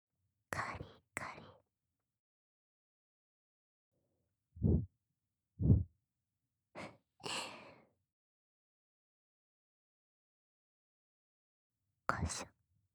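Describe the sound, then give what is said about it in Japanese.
Soft puffs of air blown close up, a handful of short breathy bursts spread across the stretch with silent gaps between them, some hissy and some low and muffled. “じゃあふうふういきまーす。”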